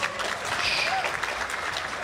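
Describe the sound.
Steady round of applause from an audience at a live talk about films: dense, continuous clapping that holds an even level for the whole stretch.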